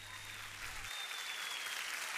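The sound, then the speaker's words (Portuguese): Audience applause, a steady, dense wash of clapping that continues without a break through the whole stretch, with no voices over it. “Não era preciso aplausos, mas pronto, aceita-se na mesma.”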